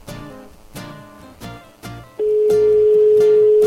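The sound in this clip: A steady telephone line tone from an unanswered surprise call begins partway through and holds unbroken to the end, sounding loudly over music.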